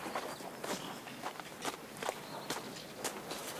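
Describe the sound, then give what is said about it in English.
Footsteps of a boy breaking into a trot: quick, evenly spaced soft steps, faint and steady throughout, with no voices. “He looks back at Gert, then breaks into a trot.”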